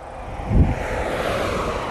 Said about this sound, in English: Those are the vehicles driving by.